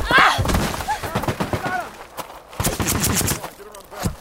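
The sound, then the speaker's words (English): Guards open fire in a rapid fusillade, with sharp bursts of shots cracking out irregularly while voices shout over the chaos. “Nice going! Now they're shooting at us!”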